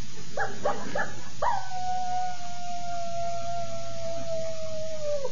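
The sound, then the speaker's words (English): A coyote howling: a few short, broken yips, then one long, sustained howl that holds a steady pitch and sinks slightly as it stretches on for about four seconds, heard alone. “What's that? I see a coyote. There's no wolves around here.”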